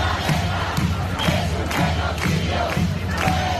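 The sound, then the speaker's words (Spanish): Demonstrators chant at a protest in Spain against the killing in Gaza, among tens of thousands marching in cities such as Madrid and Barcelona. The massed voices are loud and dense, with a regular beat pulsing under the chant. “Y mientras este sonido ha recorrido España también hoy, 100.000 personas en Madrid, 70.000 en Barcelona y otras decenas de miles en ciudades como Valencia, Valladolid, Pamplona, Córdoba, también en Londres, París o Roma, han demostrado las personas que la indignación social por el genocidio crece y esos manifestantes han clamado contra la masacre”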